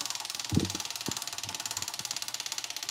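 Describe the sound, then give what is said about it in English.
A prize wheel spun on stage at a live storytelling event clicks rapidly and steadily as its pointer ticks past the pegs, a faint, even rattle with a few low knocks near the start. “Spin that wheel! Healthy spin, healthy spin.”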